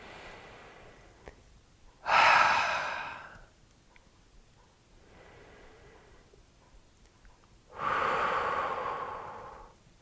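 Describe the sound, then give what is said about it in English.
Deep, slow breaths drawn in and let out, with two long, loud, airy breaths separated by a quieter, softer breath in between. “Just take a couple deep breaths with me.”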